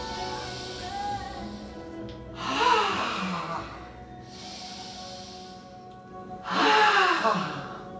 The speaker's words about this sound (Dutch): En daarom raad ik je aan nu een paar keer diep in en uit te ademen. Samen met mij.